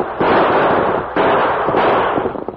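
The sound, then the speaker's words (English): Gunshots fired during an outlaw stagecoach holdup in a valley: a few sharp, loud reports, each trailing into a long rolling rumble, so that the bursts merge into a near-continuous roar. “Three of them, Tonto. Use your guns.”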